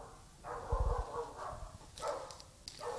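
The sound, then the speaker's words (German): A dog barks outside, giving a few rough, mid-pitched barks in short separate bursts. The barks are moderately loud, with no talk over them. “Ich glaube, das war ein Hund. Ich glaube auch, ey.”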